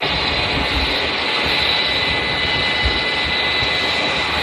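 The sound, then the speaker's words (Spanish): A wind turbine in Spain gives off a continuous, even roar much like a jet airplane passing overhead. Its broad hiss holds steady at a constant level with no breaks, and no voices are present. “esto que suena, que parece un avión, pues no, es un molino de viento eólico. Uno de tantos como los que ves a miles en España.”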